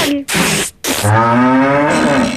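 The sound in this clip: A cow moos in one long, steady, low-pitched call lasting over a second. It comes after a few short, loud bursts of hissing noise.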